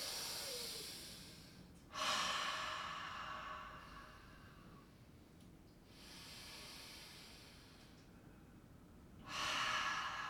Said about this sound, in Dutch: Langzaam in door de neus en uit door de mond ademen.